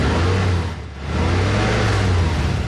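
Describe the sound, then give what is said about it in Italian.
Infiniti high-performance V6 diesel engine revving: a loud, steady, deep roar that dips briefly early on, then climbs back and holds strong to the end. “È il sound del nuovo motore V6 Infinity ad alte prestazioni. Non sembra, eppure è un diesel.”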